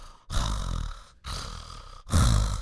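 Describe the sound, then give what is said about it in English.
A voice imitates the heavy breathing of a large woman: three loud, rasping breaths, each about a second long with short pauses between, harsh and breathy with no words. “But she breathes really heavy”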